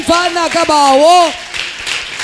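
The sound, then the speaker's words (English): Church audience clapping, called for during a sermon. A loud voice rings out first, then a softer, continuous patter of clapping carries on alone. “Somebody shout hallelujah. And clap for the Lamb of God.”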